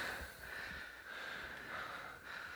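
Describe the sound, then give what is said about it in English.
Heavy breathing from a person: a faint, steady rush of breath noise that swells and dips slowly a few times, with no talk. “You're already breathing heavy.”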